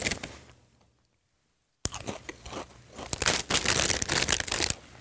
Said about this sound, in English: Again, Lay's Game Day chili flavored. That's it, just stops there. I guess it's potato chips.